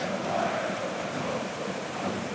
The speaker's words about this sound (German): Aber jetzt kommen auch Hagelkörner runter. Es blitzt und donnert.